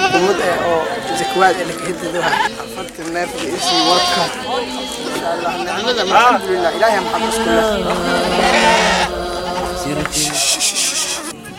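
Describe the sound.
Goats bleating during a zakat livestock distribution, with wavering, nasal cries recurring throughout under a voice talking, among rubbing and shuffling noise.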